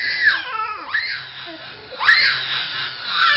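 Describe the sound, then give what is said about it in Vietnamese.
Wailing and crying from inside a cave: strained, wavering howls that rise and fall in pitch, coming in a few drawn-out bursts. “ở bên ngoài này cũng đã nghe thấy tiếng gào khóc rụng rời từ phía bên trong hang động rồi”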